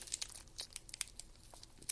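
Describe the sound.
A trading card pack wrapper is torn open: crinkly foil or plastic crackling in many quick, sharp bursts, fairly faint and with no talk over it.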